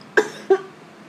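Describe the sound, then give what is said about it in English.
Two short, sharp coughs from a person in quick succession, each a brief burst that fades quickly, with no talk around them. “I promise it's just a random cough.”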